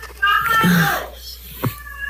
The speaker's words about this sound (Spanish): Están gritando allá como están locos.